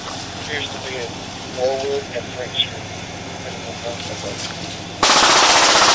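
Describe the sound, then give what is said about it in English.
Automatic-weapon gunfire aimed at police patrol vehicles: a quieter stretch with voices and a few sharp peaks gives way to a loud, sustained burst of rapid fire at the end. “the suspect opened fire into the driver's side of the police vehicle with an automatic weapon.”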